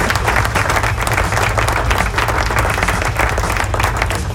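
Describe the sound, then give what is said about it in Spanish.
Applause from a crowd: steady, dense clapping that holds at an even loudness through the whole clip, with no breaks and no voices standing out. “Aplauso”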